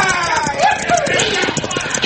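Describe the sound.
Horses ridden away at a gallop by a band of riders fleeing a sheriff's posse near a creek on a western trail: a dense, rapid run of hoofbeats that keeps a steady driving rhythm for the whole clip.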